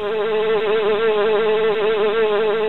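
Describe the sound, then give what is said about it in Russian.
A honeybee buzzing as it flies out of a hive, a loud, continuous drone with a gently wavering pitch and no pauses. “Пчелка в улей залетела, выгрузила нектар и пыльцу, вылетела наружу,”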